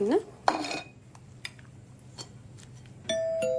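Dishes and cutlery clink at a dining table as bowls and plates are handled during a meal of spicy Indian food. A few sharp, separated clinks and clatters end in a sustained bright ring.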